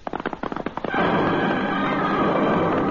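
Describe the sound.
Horses of an outlaw gang ride off after a holdup: quick, irregular hoofbeats clatter for about a second, then merge into a loud, dense, continuous rumble of hooves that holds steady to the end.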